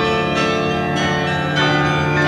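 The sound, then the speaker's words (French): Carillon bells ring from the belfry of Tournai. A few struck notes overlap in a rich, sustained, loud metallic ringing, with no voices. “Et voilà quelques notes de carillon pour clôturer ce tour des régions.”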